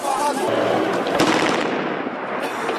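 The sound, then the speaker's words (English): Gunfire as police fire warning shots at protesters, amid tear gas canisters: a few sharp cracks within a continuous loud wash of noise. “Police and the National Guard fired tear gas canisters and warning shots to prevent these protesters from getting closer to the local police headquarters.”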